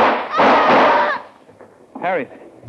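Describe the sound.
A single gunshot from a gun fired during a struggle over it: a sharp, loud blast with a short, rough decaying tail, then a brief voice.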